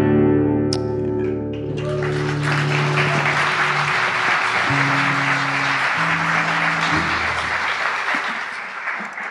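Audience applause that swells in after a few seconds of sustained low music tones, then settles into steady, dense clapping over the lingering music before easing slightly at the close.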